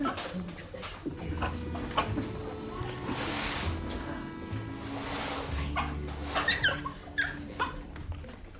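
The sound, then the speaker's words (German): A sick dog being tended gives faint, intermittent whimpers and a few soft yips over low background noise. “ich muss nur erst den Hund versorgen”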